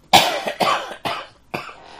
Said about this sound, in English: You know, you can cough